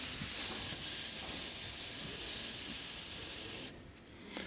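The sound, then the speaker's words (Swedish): A snake hisses in a steady, loud, airy rush that holds for most of the moment, then cuts off abruptly near the end, leaving a quieter tail. “Här kommer det en orm och börjar.”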